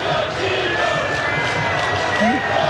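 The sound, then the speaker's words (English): A soccer crowd cheers to honor a player, a loud, continuous roar of many voices chanting and shouting together. “He was honored yesterday by the crowd. Special stuff that we got to hear. And you get to bear witness to it now. You get to hear it now.”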